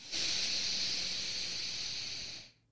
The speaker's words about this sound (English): Inhale.